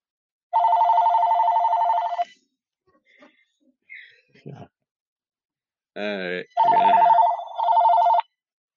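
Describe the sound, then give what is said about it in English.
A telephone bell rings in long trilling bursts: one extended ring, a gap with brief voice sounds and a sigh, then a second ring in two short bursts. “gotta deal with a phone call right now. Right back. All right, sorry about that. Stupid phone calls. Always gotta happen.”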